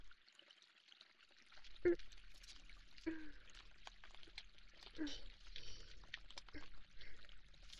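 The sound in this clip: Hands wash with water, making soft pouring and trickling sounds with a few small splashes, under a quiet, gentle voice that speaks throughout.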